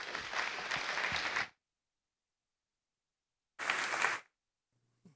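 An audience at CCC applauds to welcome a returning guest, with two short bursts of full clapping separated by silence.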